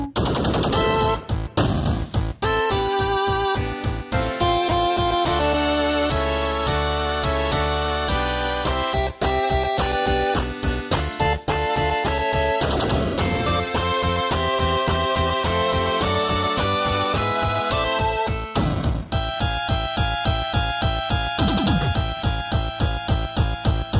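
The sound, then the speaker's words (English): Loud, continuous 8-bit chiptune music with rapid, buzzy square-wave notes over a fast, driving pulse, playing throughout with no voices. “Man, I love that 8-bit music.”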